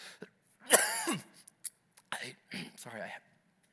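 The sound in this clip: A person clears their throat once in a loud, rough, gravelly burst. A few faint, breathy mouth sounds and quiet speech-like murmurs follow.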